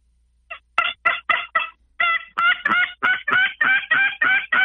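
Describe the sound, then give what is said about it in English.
Raspy yelps from a turkey tube call played by a hunter: a loud, steady run of many short, harmonic-rich notes with a slightly off, reedy tone and no talk. “another call that's really working is these tube calls. I just started using one again. And I tell you what, it gives it a little bit off sound. See if I can do it.”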